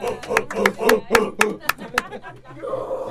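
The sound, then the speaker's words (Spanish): An audience claps in an even, unhurried rhythm, about eight sharp distinct claps, before a voice takes over at the end. “Otro aplauso a nuestro Mazatán, Arturo Mazatartán.”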